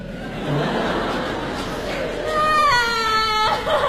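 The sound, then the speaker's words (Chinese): A child cries and whimpers in drawn-out, wavering sobs that carry on steadily, then swell into a louder, higher wail near the end. “行行，别哭，别哭，别哭。”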